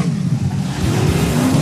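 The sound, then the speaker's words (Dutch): Racing cars roar at a Speed Weekend 2023 motorsport event, a loud, continuous low engine drone with revving that holds steady throughout. “Geweld. Een hoop auto's. Schadeloos. Schadevrij. Allemaal weer naar de pits.”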